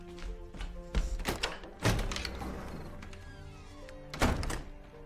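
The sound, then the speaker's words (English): A front door being opened, heard as three hollow thunks and knocks spaced out over a few seconds, with a soft sustained tonal bed running underneath. “then rushes to the front door.”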